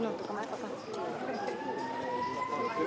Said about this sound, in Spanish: De un momento a otro, una sirena empezó a sonar.